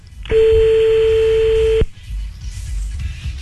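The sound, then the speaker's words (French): A telephone call being placed: a single loud, steady electronic phone tone holds for about a second and a half, then cuts off, leaving low background noise. “On y retourne, on appelle ta mère.”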